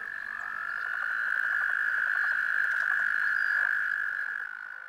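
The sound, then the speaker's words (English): Toads croaking during mating form a continuous high, buzzing trill, steady and loud throughout before tapering slightly at the end, with faint rapid pulsing inside the drone. “That was the sound of a toad mating ceremony.”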